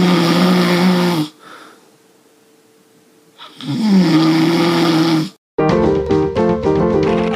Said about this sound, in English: I snore even louder than this, but that tape has been destroyed.